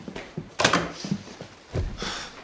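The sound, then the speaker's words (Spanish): A door is closed, heard as a few soft, fairly faint thumps and knocks followed by a duller clunk, with no voices. “Cierra la puerta.”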